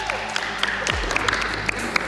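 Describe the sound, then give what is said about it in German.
Cheering and applause from a school class after a correct answer in a geography quiz. Dense, continuous clapping with sharp bursts fills the whole moment at a steady, fairly loud level. “Da gab es heute direkt Jubel, zu Recht.”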